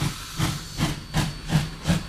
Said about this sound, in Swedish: Ett ånglok är väl nog en av de mäktigaste maskinerna som egentligen existerar